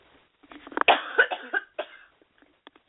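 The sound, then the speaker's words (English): A short run of several harsh, rough coughs in quick succession, followed by a few faint clicks and then quiet. “and we'll see if we can finish this with a little cough I have.”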